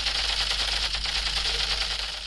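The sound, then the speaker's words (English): Rapid buzzing rattle from an electronic Kalashnikov toy gun fired by a 9-year-old boy at objects in a park in Yaoundé, sounding as one steady, dense burst that runs without pause for about two seconds. “9-year-old Kennedy Afubai uses his electronic Kalashnikov toy gun to shoot at objects at St. Anastasie, a popular park and tourist attraction in the heart of Yaoundé”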